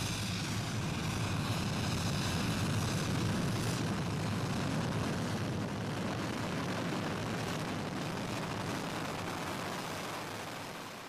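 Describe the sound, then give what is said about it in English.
Landing thrusters roar as a large, elongated bronze metal spacecraft sets down in a mining depot settlement, kicking up dust. A loud, dense, steady rumbling blast continues throughout and eases slightly near the end. “A large, elongated slab of abstract-shaped bronze metal lands in the center of a mining depot settlement, its landing thrusters kicking up dust.”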